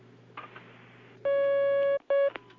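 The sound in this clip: Telephone tones as a call connects: a steady electronic beep of about three-quarters of a second, then a brief gap and a second, much shorter beep, over a faint low hum.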